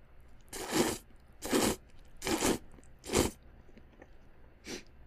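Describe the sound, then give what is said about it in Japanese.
Somen noodles being eaten, heard as five short, noisy slurping or crunching bursts at a fairly even pace, the last one fainter, with no talking. “だからそうめんで代わりにね、食べてやってるところ。”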